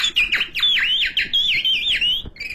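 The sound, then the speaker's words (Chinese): A caged pet bird calls in a quick string of bright, whistled chirps, each note swooping down and back up in a lively, repeating rhythm. The calls are loud and clear, with no talking. “我一进来就听见这鸟叫。”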